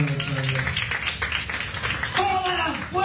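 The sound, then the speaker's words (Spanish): A church audience claps as an offering of praise. The applause is dense and continuous, with voices calling out at the start and near the end. “Dale una oferta de palmas”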